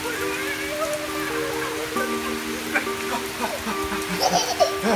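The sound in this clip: Steady rain hiss runs through all five seconds, with sustained tones above it and a few brief voice-like sounds near the end.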